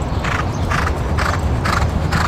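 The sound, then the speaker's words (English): Thoroughbred horses gallop around a race track under exercise riders, their hoofbeats coming as a steady run of soft, rhythmic thuds over a constant rumbling background. “exercise riders put the thoroughbreds through their paces, racing them around the track”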